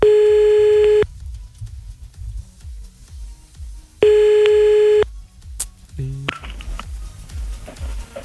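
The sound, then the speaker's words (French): An outgoing telephone call rings out with two long, steady ringback tones separated by a few seconds of near silence, followed by clicks and brief scattered noises as the line connects. “Allez hop, on y va, on appelle grâce au numéro que vous nous avez envoyé”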